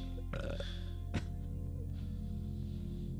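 A person burps: a rough, gurgling burst, then a second brief one, heard over a steady low hum.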